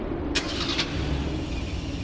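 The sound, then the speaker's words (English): A car engine starts: two brief, bright bursts are followed by a low, steady running hum. The sound stays fairly quiet throughout. “Hop into what? Into my car, of course.”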